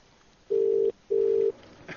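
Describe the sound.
A telephone ringing tone on a transferred call: two short, steady, low-pitched electronic tones in a double-ring pattern with a brief pause between them, over faint line hiss.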